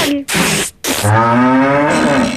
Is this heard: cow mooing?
yes